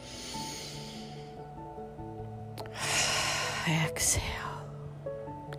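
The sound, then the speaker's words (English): A deep breath drawn in and then let out, heard as a soft, airy rush of inhalation and a breathy exhale over quiet, steady background music. “So with me, breath number one, breathe in and exhale. And again, breathe in.”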